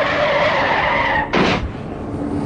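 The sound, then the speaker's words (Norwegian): A car brakes hard and skids after driving onto a sidewalk toward a newspaper kiosk. A short, harsh tire screech of about a third of a second cuts through a steady engine drone. “Hei, aviskiosken. Brems da, brems.”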